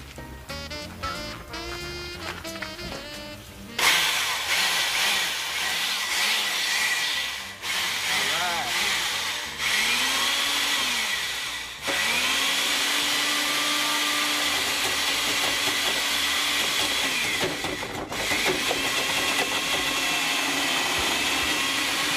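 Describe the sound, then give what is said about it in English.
Chainsaw cutting through a box holding a guitar during a stage magic trick, a loud, continuous motor roar and whine that briefly dips and shifts pitch as the blade bites, with people talking at times. “I will now attempt to saw through the box of terror, leaving the guitar without a scratch. Chainsaw, please.”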